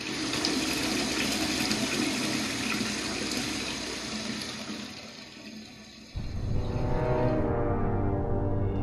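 Water pours in a heavy, continuous rush over an altar, a sound effect for the Elijah story; the flow thins for a moment before surging again in a fresh, fuller pour.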